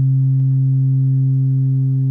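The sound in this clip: A frequency-modulation synthesis tone from a pair of oscillators holds as one steady, sustained low pitch with a buzzy, harmonic-rich timbre. It stays level and unchanging throughout, apart from a faint tick early on.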